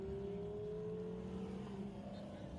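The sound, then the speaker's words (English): A pre-LP Gallardo Spider sports car rolls by at a cars-and-coffee meet, its engine a faint, steady hum with a slight drop in pitch. “Pre-LP Gallardo spider rolling by.”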